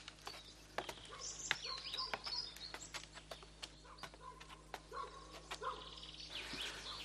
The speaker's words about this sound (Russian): Погода очаровательная. Птички поют.